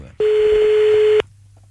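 A telephone call is dialed out: a single loud, steady electronic ring tone holds about one second, then cuts off cleanly into near silence.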